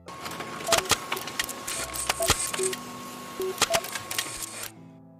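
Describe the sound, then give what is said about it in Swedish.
A printer prints out a page, its mechanical whirring broken by sharp clicks and a few brief whining tones, running steadily before stopping abruptly at the end. “Jag skriver ut den till er här.”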